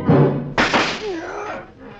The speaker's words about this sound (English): the drunk swept a gun from somewhere so fast it was just a blur coming out. Made a couple of hard snaps, and a little smoke curled.